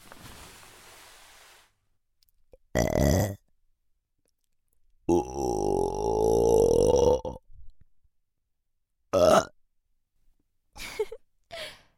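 A young woman burps several times, with silence between the burps. Short, abrupt belches alternate with one long, drawn-out, rumbling burp, followed by smaller ones near the end.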